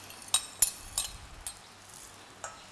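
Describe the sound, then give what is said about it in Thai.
A utensil stirs straw mushrooms in a cooking pan, giving a few faint, sharp metallic clinks at irregular intervals over a soft, steady background hiss. “แล้วก็ใส่เห็ดฟางนะคะใส่ลงไปเลยนะคะเคาพอให้มันแค่เข้ากันนะคะ”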